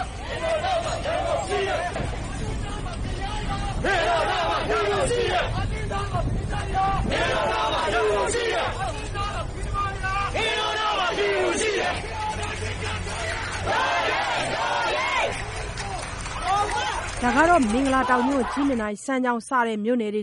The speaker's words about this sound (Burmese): ဒါကတော့မင်္ဂလာတောင်မြို့ကြီးမနိုင်စံကြောင်စားတဲ့မြို့နယ်တွေစုပေါင်းပြီးအာတင်းထားပါမန္တလေးရာမင်းတို့နောက်မှာရန်ကုန်ရှိတယ်ဆိုတဲ့ကြွေးကြော်တန်းနေအော်ဟစ်ပြီးတော့လမ်းတော်မြို့နယ်ညောင်မြင့်၄၀လမ်းမှာနေလေပိုင်းတုန်းကခြေတက်ဆန္ဒပြခဲ့ကြတာဖြစ်ပါတယ်